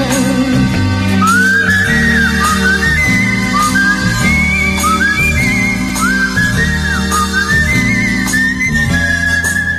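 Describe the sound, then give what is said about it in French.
A tune whistled over instrumental accompaniment, the bright melody gliding and sliding between notes in repeated phrases while a low backing pulses steadily beneath, loud and continuous. “Siffle cet air-là.”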